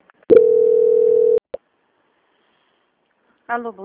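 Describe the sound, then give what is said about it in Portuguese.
A telephone tone plays during a call transfer on a bank phone line: one steady, mid-pitched beep of about a second, a couple of short clicks just after it, then a pause before a voice starts. “vou transferir a ligação para o controle de qualidade que dará continuidade à sua contratação. Só um momento, por favor.”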